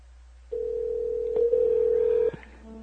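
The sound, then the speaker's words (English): A telephone tone plays while a call to a guest is placed: one steady, clean tone of about two seconds, followed by a brief, fainter beep. “I'm trying to call my guest again.”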